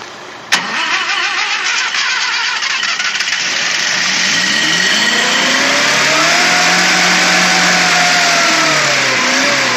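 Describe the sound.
Car engine starts with a sharp burst, then settles into a loud, steady roar whose tones climb in pitch as the driver accelerates.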